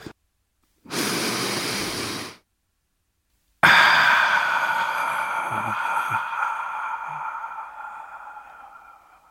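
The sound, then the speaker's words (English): A single deep breath drawn in as a long, even, airy inhale of about a second and a half. After a short silence, a ringing tone follows and slowly fades away. “if you're ready, let's Take a deep breath.”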